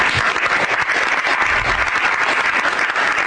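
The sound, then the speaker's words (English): Steady applause follows the president's praise of outgoing intelligence director Tulsi Gabbard after a cabinet meeting. The clapping is dense and even, with no voices over it. “And the president drew that applause this past hour in comments to the press after the cabinet meeting.”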